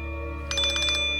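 An electronic telephone ringtone cuts in midway as a rapid, bright, high-pitched pulsing trill, loud over a steady low hum.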